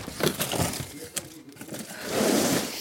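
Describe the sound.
Children's clothes being packed into a cardboard box in an office, heard as soft crumpling and rustling of fabric with a brief knock, rising to a fuller rustle near the end.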